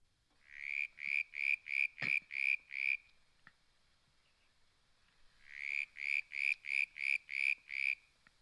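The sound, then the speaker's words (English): A country frog calls in two loud bursts of eight rapid, evenly spaced, bright pulsed notes each, with a quiet pause between the bursts and no other sound. “Country Frog.”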